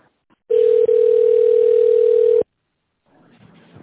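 Telephone ringback tone while a call is transferred: a single loud, steady mid-pitched tone lasting about two seconds, cutting off sharply and followed by a faint, low rustling noise.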